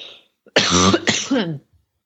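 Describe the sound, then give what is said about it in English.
A person coughing and choking from allergies: two loud, rough, voiced coughing bursts in quick succession, heard alone. “Sorry, I'm choking. Yeah, allergies are killing me.”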